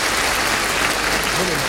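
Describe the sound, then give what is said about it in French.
Dense, sustained audience applause: steady clapping at an even level throughout, with a voice briefly audible over it near the end. “On applaudit pour les succès qu'il vous a écrits.”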